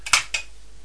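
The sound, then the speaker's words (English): Two quick metallic clinks of teaspoons rattling in the back of a child's toy truck, bright and short, the second a little softer, with no talk. “You're having lots of fun and carrying those teaspoons around in the back of the truck, aren't you?”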